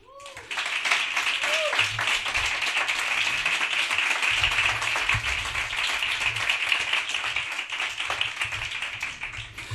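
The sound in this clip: Applause from a studio audience greets a guest on a Spanish Cadena SER radio show. It begins abruptly after a brief voice and carries on dense and even throughout, with a low voice heard underneath at times.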